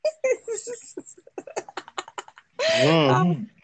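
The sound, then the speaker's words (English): Batteries rattling while someone searches for them, heard as many light, quick clicks and clatters in an uneven rhythm, followed by a burst of loud laughter, with people talking. “That sound like the battery.”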